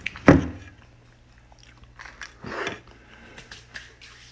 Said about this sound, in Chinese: 抱歉你们，如果听到我突然不说话了，就代表我正在吃东西或者正在喝东西。